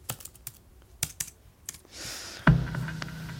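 Typing on a computer keyboard to log into a chat: a quick, irregular run of crisp key clicks for about two seconds, then a steadier background hum with no more keystrokes.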